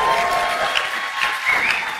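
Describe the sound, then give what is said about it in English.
Steady applause from an audience at a political speech event, a dense, continuous patter of many hands clapping at moderate loudness, with no talk over it. “A long pause for applause there because Brittany is outstanding”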